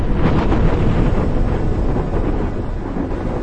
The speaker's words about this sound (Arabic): فجأة هدر صوت الرعد في السماء بقوة